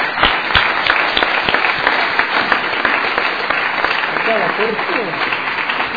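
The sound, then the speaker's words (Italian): Applause during a council meeting for a long-serving member who is retiring. It opens with a few separate sharp claps, then swells into dense, steady clapping that holds at an even loudness to the end. “vi chiedo di fare un applauso alla Clara Fontana”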